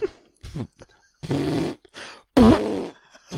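Vaginal fart sounds come as a few sputtering, airy bursts of uneven length, some carrying a low buzzing tone, separated by short silent gaps.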